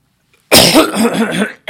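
A man clears his throat with one loud, rough burst of raspy, partly voiced grunting that lasts about a second, then a brief sound right at the end.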